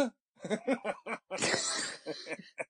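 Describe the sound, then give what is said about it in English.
A deliberately forced cough, one rough, breathy burst in the middle, surrounded by short voiced sounds like a person chuckling or speaking. “But that was like a forced cough, though, wasn't it?”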